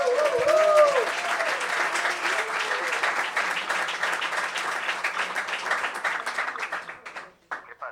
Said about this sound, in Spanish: Un aplauso para Edu.